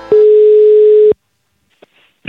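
A telephone dial tone heard while a call is being placed: a steady, loud, single-pitched hum lasting about a second that cuts off abruptly, followed by a few faint clicks.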